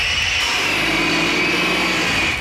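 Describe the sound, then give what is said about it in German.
Lorries trailing black exhaust and loaded with felled trees rumble through an old caravanserai county town, a steady, unbroken engine drone with a broad hiss that holds level throughout. “Durch die Kreisstadt, die alte Karawanserei, rollen die Lastwägen mit schwarzen Abgasfahnen, beladen mit abgeschnittenen Bäumen.”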